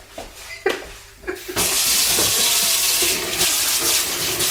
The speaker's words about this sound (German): Waschen wir uns die Hände. Waschen wir uns die Hände.